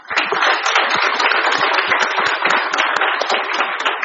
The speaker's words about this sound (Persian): به افتخار کنگره شست دست بزنید